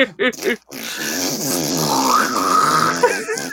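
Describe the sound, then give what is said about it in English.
Two people vocally mime a halfling being slowly impaled on spikes, with a few short strained grunts followed by a long, drawn-out growling groan that wavers in pitch. Human voices imitate the sound. “that was the sound of two entertainment professionals. Miming... you said shitty spikes, and that is the sound they make. Miming a halfling getting slowly impaled by some spikes.”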